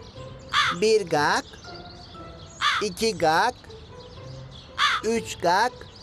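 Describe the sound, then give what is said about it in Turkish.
Harsh crow caws come in three separated bursts, each a quick run of several rasping calls, loud against a quiet background. “Bak şimdi bu karga 5 kere ötünce gelecek fikri.”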